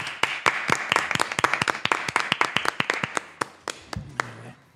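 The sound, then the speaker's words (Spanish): Hand clapping from a few people as applause for a pioneer of early video game consoles: many loud, sharp, irregular claps that thin out toward the end. “Un aplauso, hostia.”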